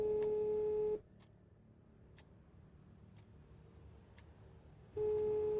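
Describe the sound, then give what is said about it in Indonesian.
A telephone call being dialed and ringing: a long steady ringback tone, then a quieter stretch of line noise, then the tone returns near the end. “Nah, coba telepon Rika dulu lah.”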